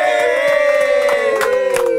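An audience cheers and applauds as guests are welcomed, with a drawn-out, high shouted cheer ringing over scattered sharp hand claps.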